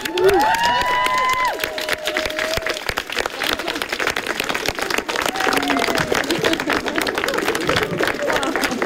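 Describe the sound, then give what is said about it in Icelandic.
Guests clap at a home gathering. Lively applause runs throughout, with cheering and voices over it, strongest at the start. “Og þá klöppum við bara.”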